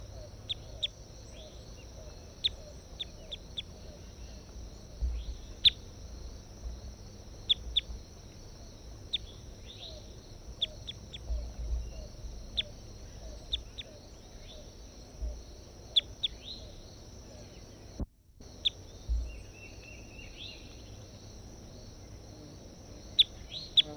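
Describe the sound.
Bird calls recorded in the field: many brief, sharp chirps scattered across the whole recording over a steady high insect-like drone and faint background rumble.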